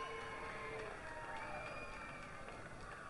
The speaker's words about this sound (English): Crowd screaming.